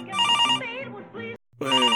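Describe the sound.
A telephone rings with an electronic, tonal ringtone in two bursts separated by a short silent gap, loud and alone.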